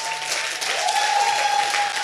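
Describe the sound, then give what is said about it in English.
A church audience clapping their hands, a dense, continuous wash of many hands beating together, loud and even for the whole stretch. “Clapping is a sign of victory. Clap. Clap.”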